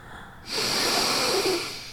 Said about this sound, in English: Just take a deep breath. And breathe out.